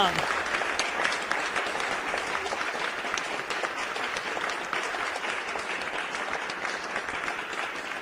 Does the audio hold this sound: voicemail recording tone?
no